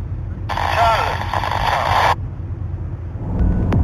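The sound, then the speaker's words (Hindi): Car driving at dangerous speed on a Tehran highway, an engine roaring in a loud burst of about one and a half seconds over a steady low road rumble, with a rise in noise again at the end. “नहीं अभी Tehran के highways और सड़कों पर खतरनाक रफ्तार के साथ घर की तरफ जा रहा हूँ।”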